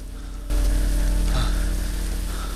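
Heavy rain pouring down: after a brief quieter moment, a dense, loud hiss starts abruptly and continues steadily to the end with a low rumble beneath it.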